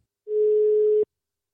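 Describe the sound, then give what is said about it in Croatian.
A telephone ringback tone sounds while a call waits to be answered: one steady, mid-pitched, fairly loud beep that lasts just under a second and then stops abruptly, with silence around it. “sada telefonski nazvati jednu od naših blogerica i kolumnistica Maju Vujčić-Vračević.”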